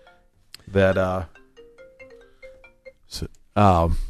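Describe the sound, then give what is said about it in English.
A phone rings during a talk show, giving a short run of steady electronic tones that sit in a quiet gap between bursts of speech. “my phone went”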